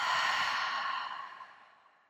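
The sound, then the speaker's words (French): A deep exhale through the mouth during a guided meditation breathing exercise: one long, breathy sigh that starts full and fades steadily to quiet. “Encore une fois, inspirez par le nez. Et par la bouche, une grande expiration.”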